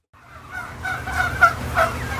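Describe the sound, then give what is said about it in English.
Turkey hens on a farm in Cannon Falls, Minnesota give a few short, faint calls over a steady low rumble from the flock. The calls grow slightly stronger toward the end. “right now, there are thousands and thousands of turkeys roaming around his farm in Cannon Falls, Minnesota. These turkeys are all hens.”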